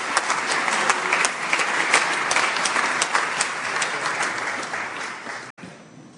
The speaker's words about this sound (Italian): accogliamo con un caloroso applauso la Ministra per le Riforme Istituzionali e la Semplificazione Normativa, l'Onorevole Maria Elisabetta Alberti Casellati